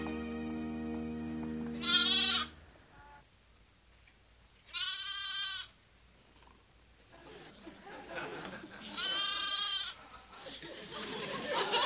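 A lamb bleats three times on a high-rise 28th floor. The bleats are wavering and reedy, each separated by quiet stretches, with a low steady hum at the start and faint background chatter later.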